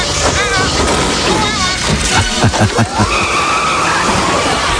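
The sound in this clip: Tires skid as a robot-driven taxi car speeds off in a science-fiction film scene. A loud engine rush and squealing screech rise over the commotion while voices talk over it.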